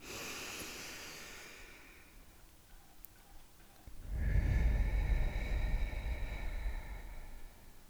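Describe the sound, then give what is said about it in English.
A deep breath in and out, taken as a calming exercise. A soft, airy inhale fades, then after a pause comes a longer, fuller and louder exhale with a low, rushing breathiness. “Let's take our traditional deep breath in and out.”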